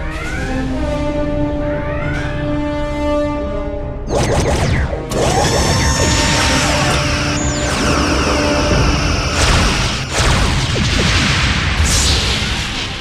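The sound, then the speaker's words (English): Sci-fi weapons fire striking a starship, with several heavy, loud blasts and crashing impacts following tonal sounds at the start. The bursts are dense and noisy and hit in an irregular rhythm. “Bridge to Edwards, we're under attack.”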